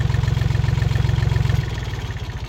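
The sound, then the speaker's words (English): Steady, loud low-pitched rumble of a four-cylinder diesel tractor engine running, with a fast even pulse; partway through, the throb softens and becomes slightly quieter, continuing alone without voices. “That's a tractor. Yeah, it's got to be. That's something diesel. Yeah. It's a four-cylinder diesel tractor.”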